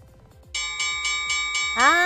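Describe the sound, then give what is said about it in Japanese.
A hand bell is struck six times in quick, even succession, like a wrestling gong signalling the end of a talk show. Its bright, sustained ringing is loud, with voices faintly underneath. “なんか Q が欲しいよね。カンカンとか鳴らして。”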